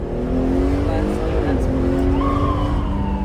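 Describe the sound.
A police car's siren wails over engine and road noise as it speeds away toward a fellow officer chasing an armed suspect. The wailing tone shifts and sweeps upward partway through, loud and steady throughout.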